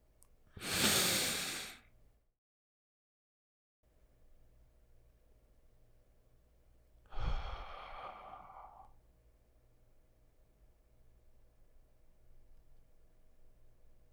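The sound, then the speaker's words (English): A slow breath in and then an exhale during guided meditation. The two breathy events are separated by a long pause, the first louder, over a faint steady hum. “Take a breath in, then exhale.”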